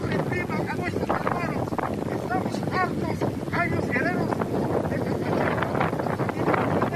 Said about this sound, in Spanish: Se escucha más el viento.